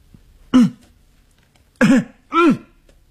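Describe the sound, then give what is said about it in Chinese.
Loud coughing from a man steeling himself on a stairway in a women's dormitory: three harsh, throaty coughs, the first standing alone and the last two in quick succession. “他咬着牙走过去，他大声的咳嗽。”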